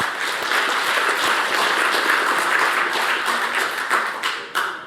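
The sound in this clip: Audience applause welcoming a speaker to the stage at a networking technology talk: sustained, even clapping that thins out near the end into a few last scattered claps.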